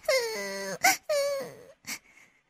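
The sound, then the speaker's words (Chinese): A little girl crying after getting lost at night, wavering wailing sobs broken by a few sharp gasping catches of breath, loud and without words. “小女孩说着就哭了起来。”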